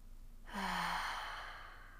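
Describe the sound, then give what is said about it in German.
A single breath exhaled through the mouth during a yoga practice: a soft airy rush that opens with a brief voiced hum and fades out over about a second. “Letztes Mal ausatmen Mund.”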